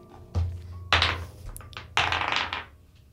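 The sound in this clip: Dice are rolled during a tabletop role-playing game session. There are three clattering bursts of knocks and rattling thuds on a hard surface, with short pauses between them. No one speaks.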